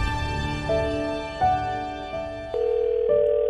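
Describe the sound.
Telephone tones of an outgoing call sound as a series of steady electronic pitches. They step to a new pitch every half second or so, with a faint low rumble at the start.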